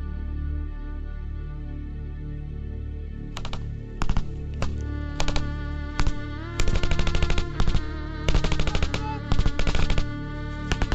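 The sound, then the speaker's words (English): Machine-gun fire in a military gunfight, with loud rapid bursts of sharp cracks that begin after a few seconds of low rumbling hum and then return again and again in clusters of varying length. “5 minutes on, and the gunfight continues.”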